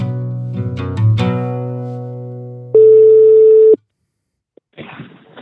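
A telephone tone as a call home is placed: one loud, steady, single-pitch beep lasting about a second. Before it comes a fading sustained tone; after it, a silence and a short burst of crackly noise.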